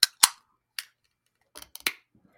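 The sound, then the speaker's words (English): An IPA beer can being cracked open: several sharp, bright clicks and snaps at uneven intervals, with short gaps and a tight cluster of louder pops near the end. “But I do like IPAs. So 3, 2, 1, crack.”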